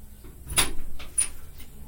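A door is opened to let air into a hot room, giving a couple of brief, soft clunking and scraping sounds with short rattles between them.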